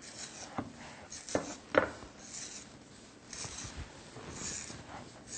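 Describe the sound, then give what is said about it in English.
Fork tines rasp across food as lines are scored into its surface. A few short scraping strokes rise above quieter rubbing between them. “Or you can use your fork and just make some lines, like this, using the tines of the fork.”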